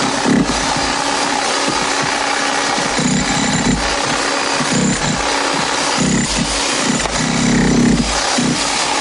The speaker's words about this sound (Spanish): Vuelve a coger el taladro y taladra la capa inferior.